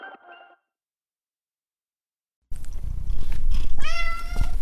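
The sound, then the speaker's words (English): A domestic male cat meows once, clear and fairly loud, over a low steady rumble that follows a short faint sound and a stretch of silence. “I'm Gary Niederhoff, and that's my cat, and he's taken up hunting, which is great fun because he brings prizes.”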